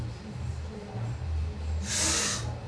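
Someone inhales a puff of cannabis smoke: one short, airy hiss that swells briefly near the end. It sits faintly over a steady low hum.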